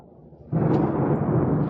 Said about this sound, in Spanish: Bajo el fulgor de los relámpagos que se abaten sobre aquella zona, anunciando la tormenta